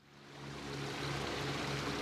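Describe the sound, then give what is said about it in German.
Water spilling and gurgling over the edge of an outdoor swimming pool: a faint, steady rushing wash with a low hum beneath it, swelling slightly at the start and then holding even. “Der Rasenmäher dreht seine Runden und das Wasser gurgelt über den Schwimmbadrand.”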